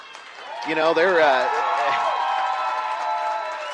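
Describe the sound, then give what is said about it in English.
Crowd applause and cheering for the Day School Eagles, a tiny school in Evansville, at a game: steady clapping and raised voices that swell early and hold, heard beneath commentators talking. “Nice hand here for these Day School Eagles. Yeah, they had a great crowd, by the way.”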